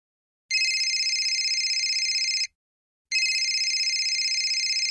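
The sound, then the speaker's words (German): A telephone rings with two long electronic trilling rings, bright and steady, separated by a short silent pause. “Kaum hat Hanna den Anrufbeantworter abgehört, klingelt schon das Telefon.”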